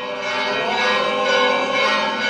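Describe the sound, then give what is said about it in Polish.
Church bells ring at an Orthodox cathedral in Turkey as a loud, dense peal of overlapping tones that swells slightly and sustains throughout, with no separate strikes standing out. “Papieża, tak jak wczoraj, powitał głos bijących dzwonów.”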